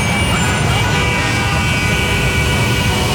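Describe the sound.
A traffic jam in a travel advertisement: a constant, loud rumble of engines and road noise that holds steady throughout without letting up.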